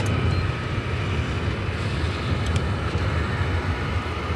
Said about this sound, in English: Touchdown. Deploying reverse. Flaps are full. Deploying reverse is down. Spoilers are extended.